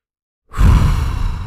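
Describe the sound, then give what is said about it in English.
A deep, audible breath taken during a guided relaxation exercise. It starts abruptly after a moment of silence, then continues as a full, breathy rush of air that stays strong and fades only slightly to the end. “Take a deep breath”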